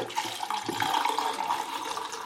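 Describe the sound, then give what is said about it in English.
Water runs and splashes while rinsing during film developing, a steady, continuous gush of liquid with small fluctuations in level throughout. “Do some rinsing.”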